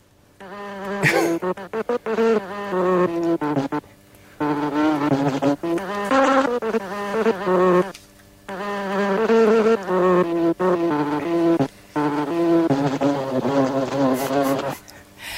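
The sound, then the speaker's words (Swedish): Insects buzzing in loud, wavering, harmonic bursts, broken by several brief gaps of near silence before each burst resumes. “Jag vill bara säga en sak till om insektsljuden.”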